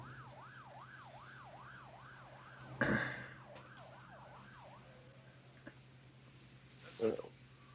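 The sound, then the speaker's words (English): A police siren wails in quick, regular rising and falling cycles, faint and steady for several seconds before fading out, broken by a couple of brief, louder bumps. “the sirens are English, I think.”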